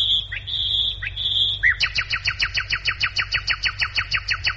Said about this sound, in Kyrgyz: Мындай учурда биз унутуп бараткан добуштар көбүрөөк угула баштады. Бул сайраган куштар.